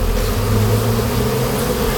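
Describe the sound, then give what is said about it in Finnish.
Honeybees buzz at an apiary on the edge of a botanical garden, with hives being opened: a steady, dense, loud hum of many wings, continuous and unbroken, with no voices. “Surinaa ja pörinää täällä Ruissalon kasvitieteellisen puutarhan reunamilla on. Täällä on vuoden mehiläistarha ja Marko Leino.”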